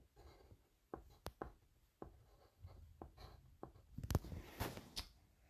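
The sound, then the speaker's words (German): A purple pen writes a heading on paper, with many short, faint scratchy strokes and brief taps in an uneven rhythm that grows a little busier toward the end. “Jetzt schreibe ich da oben halt so ein lila so Bucketlist hin.”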